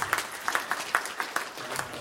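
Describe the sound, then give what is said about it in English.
Faint applause from a small audience at the end of a talk: a thin, steady patter of separate hand claps with no cheering. “I think a round of applause is appropriate.”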